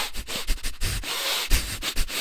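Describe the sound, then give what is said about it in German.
A person breathing rapidly and chaotically in and out through the nose: many quick, sharp sniffing breaths in an irregular rhythm, fairly loud and alone. “dieser Phase atmest du durch die Nase ein und aus, und zwar so intensiv, so schnell und so chaotisch und so durcheinander wie möglich.”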